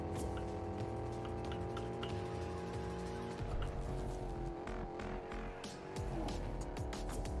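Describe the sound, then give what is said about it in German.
Engine of a Lamborghini Huracan sports car driven in a video game, a sustained high droning engine tone whose pitch dips briefly, with sharp clicks and squealing tires over it. “Lamborghini Huracan.”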